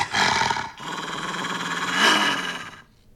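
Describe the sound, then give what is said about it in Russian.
A dog growls and snarls, loud and rough, starting with a short burst, then a longer rumbling growl that swells before fading out. “Откуда взялась собака?”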